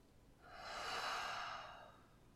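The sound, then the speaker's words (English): One slow, deep breath, soft and quiet, swells over about a second and then fades away, with no voices around it. “Let's share a deep breath together.”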